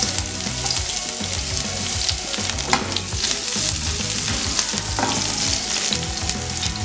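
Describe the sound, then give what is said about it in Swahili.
Onions fry in hot oil in a pan for an eggplant dish, with a loud, steady crackling sizzle of dense tiny pops that runs unbroken throughout. “Nitaongeza mafuta kupika kidogo. Kisha tutaongeza vitunguu vyetu.”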